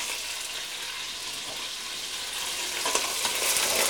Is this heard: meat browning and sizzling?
yes